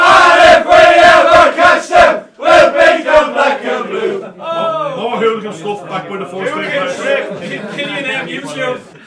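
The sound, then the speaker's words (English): Over a dozen Shamrock Rovers (Hoops) supporters chant in unison in Johnny Blue's bar, a loud rhythmic sung chant with short breaks, followed by a steady babble of many voices talking and laughing. “we've a live studio audience, as you might have realised, in Johnny Blue's bar, over a dozen Hoops supporters”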